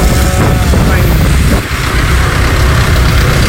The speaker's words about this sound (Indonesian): Coba saya play dulu videonya. Lagi macet di daerah Pasuruan, Kejayan.